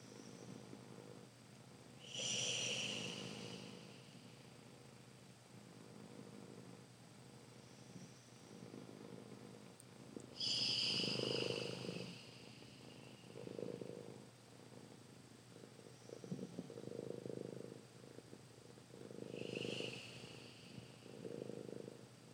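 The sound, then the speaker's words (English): Three long Ujjayi yoga breaths during a meditation, each a slow, throaty, hissing rush of air. They are spaced well apart over a low, quiet background. “Three Ujjayi breaths.”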